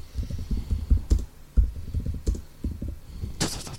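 Typing on a computer keyboard while a search query is entered: bursts of quick, irregular key clicks separated by short pauses, ending in a sharper clatter of keys, with no talk over it.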